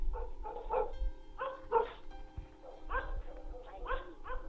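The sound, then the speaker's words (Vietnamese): Dog barking furiously, with rough, repeated barks in an uneven, insistent run over a low rumbling background. “Tuy nhiên tiếng chó sủa thì càng lúc càng lồng lên dữ dội, như là con chó nó đang cắn ma.”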